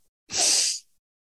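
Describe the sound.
A deep breath drawn in during a guided meditation: one breathy, hissing rush about half a second long. It starts abruptly, holds steady and cuts off cleanly, standing alone in near silence.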